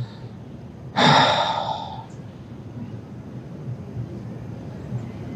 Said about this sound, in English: Just in a moment, we're going to exhale. So right now, let's exhale.